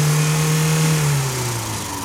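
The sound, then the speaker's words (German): A car engine revs while driving uphill on a mountain road in a snowstorm. It makes a loud, sustained hum with a steady hiss behind it, and it eases off slightly near the end. “Ein richtiger Schneesturm ist das. Ich glaube, ich gebe Gas, dass wir schneller bis Holdener oben sind.”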